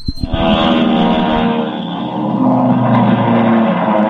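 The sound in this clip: Loud, continuous engine roar from race cars speeding down a straightaway late in a race, a radio drama sound effect, sustained and steady for the whole clip with a low rumbling growl.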